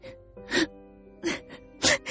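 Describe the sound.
A woman cries in a Vietnamese radio drama, with a few loud, voiced sobs and wails separated by quieter, shaky breaths.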